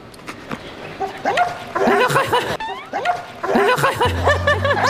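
A lively dog barks, yips and whimpers in quick bursts of high-pitched, excited sound, with barely a pause between them.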